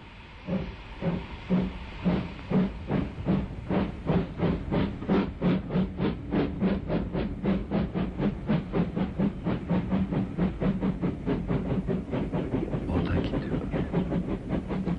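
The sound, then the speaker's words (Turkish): A steam train pulls out of a station, its rhythmic chuffs of hissing steam starting spaced apart and steadily quickening into a fast, continuous beat, with a loud burst of steam near the end. “Hareket edebilirsin makinist arkadaş. İyi yolculuklar.”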